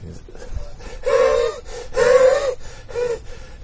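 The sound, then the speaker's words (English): A voice imitates huffing, puffing and wheezing, like someone struggling up a road: three loud, strained, raspy breaths with smaller puffs between them. “he comes huffing and puffing and wheezing up the road”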